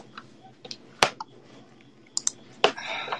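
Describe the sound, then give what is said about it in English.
Typing on a computer keyboard produces a few irregular, sharp key clicks, some in quick pairs, over a low, steady background hum. “You got to look it up. Hold on. You got to type it.”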